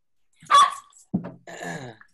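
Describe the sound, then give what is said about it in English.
A dog barking: a few separate barks and yips in quick succession, with the final one more drawn-out and tonal, against an otherwise silent background. “Sorry about the dog.”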